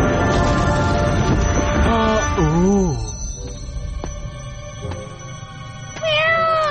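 A cat meowing: several drawn-out, wavering meows that bend up and down in pitch, then a quieter stretch and one more meow, all over a busy background.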